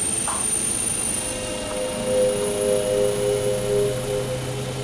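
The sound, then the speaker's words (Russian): Aircraft engine droning as a plane takes off from a runway, with a continuous, fairly loud roar carrying steady humming tones and gentle swells in level throughout. “Вас понял, 5619 Янки, разрешаю взлет на полосе 24. Повторяю, разрешаю взлет на полосе 24, прием.”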